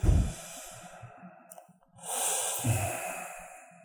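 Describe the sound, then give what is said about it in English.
Deep, slow human breathing: two long, airy breaths separated by a short pause, soft and steady with no talk over them. “We'll just finish off with a couple of deep, nice, slow breaths.”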